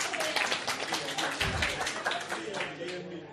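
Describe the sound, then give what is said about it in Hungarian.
An audience applauding themselves: dense, steady clapping from many hands fills the whole stretch at an even, lively level. “Megtapsolták magukat.”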